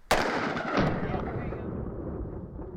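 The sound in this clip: A gunshot at a shooting range, fired at a bulletproof origami shield: one loud, sharp crack followed by a long, noisy rumbling tail that slowly fades.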